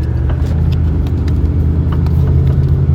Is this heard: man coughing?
no

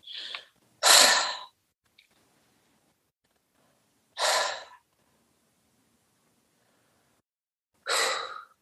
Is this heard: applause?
no

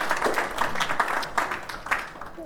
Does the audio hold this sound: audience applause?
yes

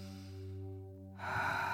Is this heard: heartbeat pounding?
no

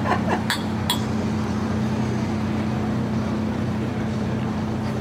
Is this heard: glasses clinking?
yes

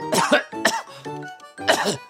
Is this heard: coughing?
yes

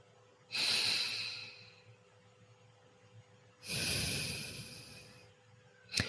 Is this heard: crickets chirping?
no

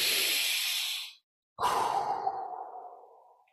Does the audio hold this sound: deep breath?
yes

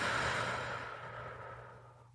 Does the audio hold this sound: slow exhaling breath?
yes

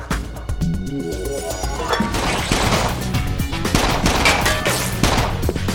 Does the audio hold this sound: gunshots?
yes

